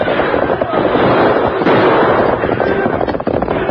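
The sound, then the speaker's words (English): Gunfire crackles during a stagecoach hold-up as several guns shoot in dense, overlapping bursts. The loud, continuous barrage of shots and pops fills the whole stretch. “Outlaws. They intend to hold up the stage, but they won't get away with it. Come on, Silver. Come on, Scout. Use your guns, Tonto.”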